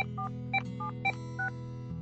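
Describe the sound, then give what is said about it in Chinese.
Mobile phone keypad tones as a call is dialed from a car parked at a village entrance: a handful of short, faint dual-tone beeps at an uneven pace over a steady low hum. “香罗把车停在村口，掏出手机给大全打电话”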